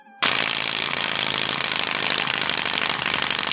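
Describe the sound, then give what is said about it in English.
A spinning bicycle wheel clicks rapidly, a loud, dense, continuous ratcheting rattle that starts abruptly and holds steady without slowing. “Now, that sounds like the big wheel in the casino that it's going to land on one. That's a bicycle spot.”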